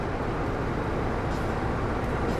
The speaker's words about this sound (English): And the locomotive is pulling to a halt, giving our passengers a good opportunity to get comfortable on the train before we set off.